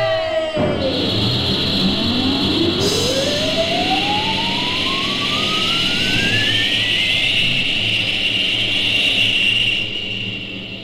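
A rocket ship launches with a loud, steady roar. A whistling tone sweeps steadily upward in pitch over the roar, then levels off high and holds until the end.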